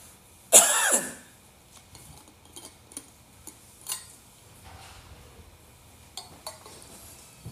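A single loud, harsh cough from an itchy throat breaks into a quiet church sermon, followed by a few faint ticks and clicks.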